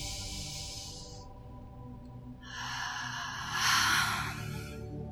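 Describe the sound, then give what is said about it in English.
Slow mouth exhalations during a meditation breathing exercise: a soft airy hiss that fades out, a pause, then a second, longer breath that swells louder toward its end before trailing off. “Exhale slowly through the mouth. And then speeding up towards the end, pressing all of the breath out.”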